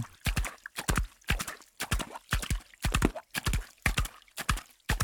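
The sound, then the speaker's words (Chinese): Horse hooves clip-clop in a fast, steady running rhythm: many crisp hoofbeats grouped in quick doubles and triples, loud and clear with no talk. “听到诗人笔下快速奔跑的达达马蹄声，也有奔跑在雨里踏着水坑的马蹄声”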